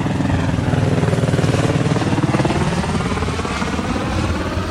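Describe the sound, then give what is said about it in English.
Helicopter rotors thump loudly and steadily as an A-star helicopter lands at the busy Campo de Marte Airport in São Paulo, a fast, even chopping pulse over a dense engine roar. “the Campo de Marte Airport in São Paulo, and it's almost impossible to hear yourself think. There are so many helicopters coming in or taking off.”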